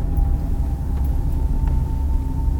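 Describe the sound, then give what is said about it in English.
Steady low rumble of a car driving along a road, continuous and even throughout with no voices. “We're driving there right now.”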